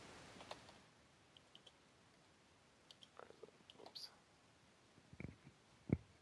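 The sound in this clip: Faint typing on a computer keyboard comes through as sparse, irregular key clicks, some isolated and some in quick little clusters, separated by quiet gaps.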